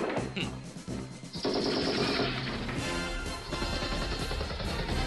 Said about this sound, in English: it's like he is just shooting people all over the place